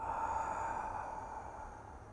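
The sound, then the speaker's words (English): Slow exhalation during a breathing exercise, breathing from the abdomen at a natural pace: one long, soft, airy breath out that holds steady and fades slightly toward the end, with no talk. “see, I exhale, that's all, and I follow the exhalation.”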